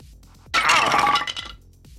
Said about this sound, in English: fired on its rickety attachment to the ceiling and brought it down crashing onto the man's head.